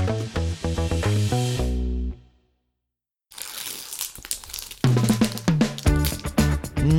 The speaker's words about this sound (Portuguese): Abrimos aqui o nosso primeiro pacote de Senhor dos Anéis.